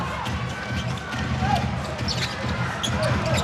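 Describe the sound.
A basketball is dribbled during a game, its soft thumps faint under steady crowd noise and voices.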